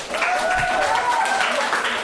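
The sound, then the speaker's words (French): Classmates applauding a pupil named Chloé in a school class, steady clapping at full strength throughout with a voice rising over it. “Est-ce qu'on peut applaudir pour Chloé?”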